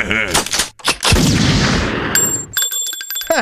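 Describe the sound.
A single loud gunshot in a dramatic film scene follows a brief vocal sound, then rolls into a long, noisy decaying rumble that ends in a sharp, high ringing tone.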